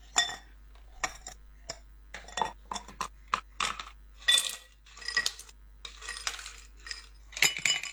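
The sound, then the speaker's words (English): Ice cubes clink into a glass in a series of bright, sharp chinks and rattles. The hits are irregular, some in quick clusters, with short quiet gaps between them. “Ke bile u tsela ka khalase ke di ice cubes.”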